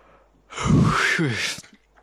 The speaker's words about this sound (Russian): Очень не выспался прошлой ночью и тоже продолжаю зевать сегодня весь день.